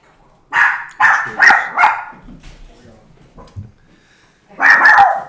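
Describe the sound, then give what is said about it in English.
A dog barks at someone in the house: four sharp barks in quick succession, a quieter stretch, then another loud burst of barking. “Somebody's in the house. That's what's making her bark.”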